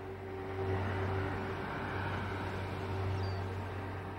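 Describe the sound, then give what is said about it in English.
A car drives along a winding coastal road lined with tall palm trees, giving a steady, continuous engine and road rumble with a low tonal drone that stays even throughout and has no voices over it. “Jack drives along a winding coastal road lined with tall palm trees.”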